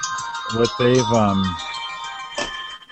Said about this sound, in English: phone is ringing. he said he'd be right back.